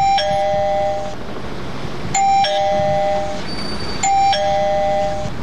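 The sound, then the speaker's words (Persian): A battery-powered doorbell at a house door rings three times at even intervals. Each ring is a bright electronic chime with a lingering tonal tail, heard over a low background hum. “صبر کو، زیاد زنگ نزن که بالتیش خلاص میشه.”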